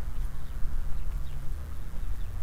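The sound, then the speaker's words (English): Wind blowing across outdoor microphones, a low, rumbling buffet that surges and eases unevenly throughout, with no voices. “And phew, I hear that wind going through the mics again. Hope it won't be too bad.”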